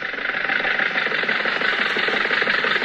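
A car engine running steadily as the car drives into a crowded drive-in theater, a continuous mid-pitched hum with a faint rough flutter and no talk.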